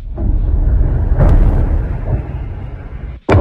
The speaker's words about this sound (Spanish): Este es el sonido de las explosiones sobre Teherán, de los ataques americanos e israelíes sobre Irán.